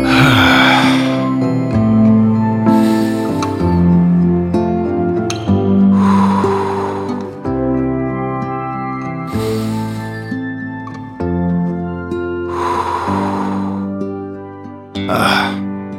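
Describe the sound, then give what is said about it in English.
Slow, deep breaths in and out during a guided calming exercise, set over a steady music bed. The breathy bursts rise and fade several times at a regular, unhurried pace. “Breathe in and out. Breathe in and out.”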